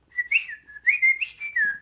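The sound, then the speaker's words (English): A voice imitating a robot droid by whistling a quick run of warbling electronic-style tones. The pitch wavers up and down in short connected bursts, like beeps and chirps, heard alone without speech. “waiting for Star Tours, is to me droids should either sound like this.”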